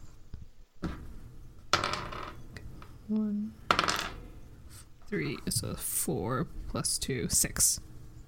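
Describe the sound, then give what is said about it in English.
Dice clatter on a table in brief, bright rattles as a damage roll in a Dungeons & Dragons game, scattered among people talking. “That's a hit, and what you're gonna roll 2d6 +2.”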